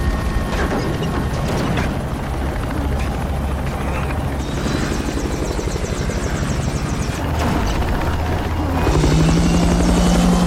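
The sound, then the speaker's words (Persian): A helicopter comes down in autorotation during an emergency crash landing. Its rotor chops in a fast, steady beat over constant mechanical rattling, and near the end the sound grows louder as a low, droning whine joins in. “وضعیت اضطراری، موقعیت سقوط، خودگرد فرود میارمش.”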